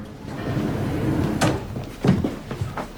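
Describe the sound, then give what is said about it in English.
Lift doors opening: a soft sliding rumble broken by a few sharp mechanical clunks and knocks, moderately loud, with no voices. “The lift doors open.”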